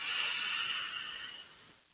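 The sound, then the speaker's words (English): A deep breath drawn in during a guided relaxation, heard as a soft, steady airy hiss that holds evenly and then fades away near the end, quiet and alone with no talking. “take in one final beautiful breath right in”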